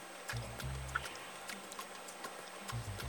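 Steady clock ticking used as a quiz countdown timer, with light, evenly spaced ticks over a low, pulsing tonal hum and no talk.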